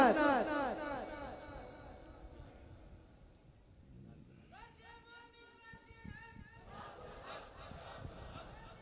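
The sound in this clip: Crowd voices answer the Nara-e-Takbir and Nara-e-Risalat slogans, fairly faint, shouted together in uneven bursts with a lead voice also heard.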